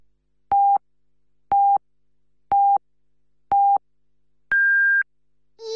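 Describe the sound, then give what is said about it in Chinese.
Hourly time signal pips from a radio station: four short, identical mid-pitched beeps spaced a second apart, then one longer, higher-pitched beep, followed by the start of a voice. “104.7实施广播电视台综合广播，为您整点报时。”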